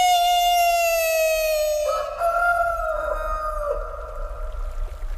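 A rooster crows once in a long, drawn-out call with bright, clear harmonics, loud and alone, shifting partway through before it fades out.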